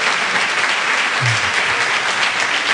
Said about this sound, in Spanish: acabas de arrancar el aplauso de un programa de radio.